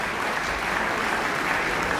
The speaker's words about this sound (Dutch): Ja, het is heel snel afgelopen nu, want het publiek weet nu dat ze kunnen klappen tot ze een ons wegen.